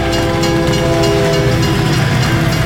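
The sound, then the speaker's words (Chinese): A train runs through a railway tunnel near a station with a loud, steady rumble and a droning hum that persist throughout. No voices are heard. “小时候搭火车总期待过山洞后映入眼底的新景色，但是现在穿梭圣心车站的隧道后，期望看见的却只是存在脑海里的旧回忆。”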